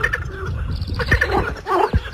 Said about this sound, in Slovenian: to so seveda žabice, ki se takole oglašajo